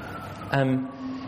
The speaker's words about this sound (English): That's the ambulance for Peter.